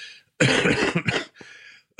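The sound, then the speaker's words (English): A person with a persistent cough coughs hard in a few harsh, rough bursts: a long racking cough, then shorter ones, separated by brief silences. “Do I have to beep out the coughs?”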